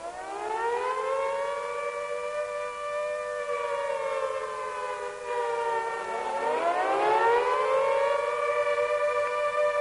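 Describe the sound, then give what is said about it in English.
A World War II-era air raid siren wails alone, its loud harmonic tone holding nearly level and sagging slightly, then dipping sharply near the end before climbing back up to full pitch. “This is the sound of war. It is an air raid signal.”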